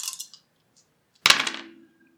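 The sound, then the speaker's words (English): Three dice rolled for an armor save in a tabletop role-playing game: a brief light clatter, then a louder, longer rattle of dice tumbling and settling. “Your armor is three dice. Yep. So roll three dice. For every six, you reduce the damage by one.”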